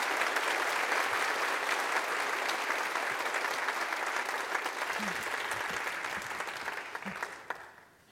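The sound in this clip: A church audience applauds to welcome a guest speaker with steady, dense clapping that holds evenly, then thins and fades away near the end.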